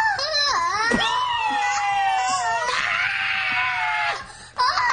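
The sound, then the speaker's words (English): A father screams in a high, shrill wail, a sustained wavering cry with a couple of brief breaks before one last short burst at the end. “See, daddy screamed like a girl.”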